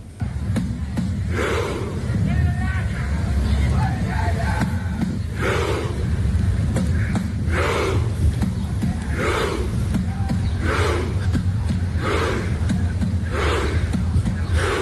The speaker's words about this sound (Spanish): y así suenan las calles aquí en Miami estos días.